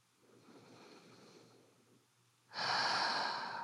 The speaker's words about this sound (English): Hands are on the ground. Balls of your feet are on the ground. You're hanging out in a nice, easygoing plank pose. And we'll breathe here together for a while.